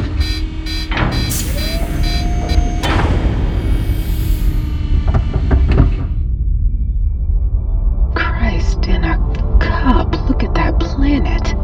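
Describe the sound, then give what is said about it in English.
A Mostorian spaceship airlock door opens with loud mechanical clanks, a whining tone and a hissing rush. After a brief lull, a flurry of sharp clicks and knocks follows. “Mostorian airlock opening in 3, 2, 1.”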